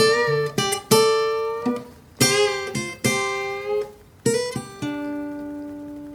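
Country guitar lick played around a G chord, fingered high on the neck near the tenth fret: a quick run of plucked, twangy notes in short phrases, each ringing on clearly, played alone.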